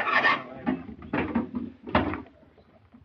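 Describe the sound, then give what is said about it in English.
A wooden crate is pried open, with a few sharp creaking and knocking bursts of wood spaced across the moment, each followed by quieter rustling and settling between them. “tell him to take it easy opening that crate. I don't want anything to happen to that organ.”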